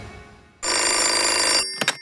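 Telephone bell ringing: one loud, continuous metallic ring lasting about a second that cuts off abruptly, followed by two brief knocks.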